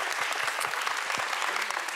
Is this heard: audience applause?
yes